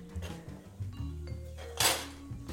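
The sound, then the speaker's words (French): Kitchen utensils clinking and clattering as a whisk is readied to mix fromage blanc with honey: several faint knocks and clinks, with a sharper, brighter clink near the end. “On prépare un fouet”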